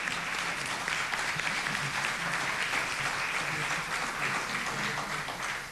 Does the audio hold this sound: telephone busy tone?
no